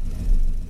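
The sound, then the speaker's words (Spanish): The engine of a 1987 Chevrolet El Camino gives a brief, deep, steady rumble that swells slightly midway and then settles. “Préndele el motor, compadre.”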